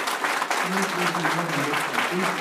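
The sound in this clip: Audience applause at an awards ceremony: steady, dense clapping that fills the whole clip at an even loudness, with a voice faintly present beneath it.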